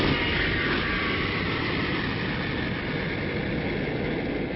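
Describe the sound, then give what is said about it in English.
Steady, loud engine roar of an aircraft taxiing on the runway just after landing, a broad, even rumble that holds without breaks throughout, with no voices. “The aircraft is on the ground and is taxiing over Victory Field's golden runway toward its position at the Port of Glory.”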